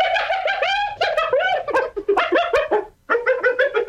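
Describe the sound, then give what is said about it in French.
Hyena calls: a loud, rapid run of high, chattering giggles with wavering pitch. The calls break off briefly near the end, then start again. “Alors, voici pour commencer le son d'une hyène.”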